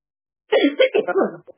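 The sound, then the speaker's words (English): Someone coughs in a short, throaty burst of a few voiced hacks from an irritated throat, fairly loud and heard alone with no other sound. “my apologies, I haven't coughed all day.”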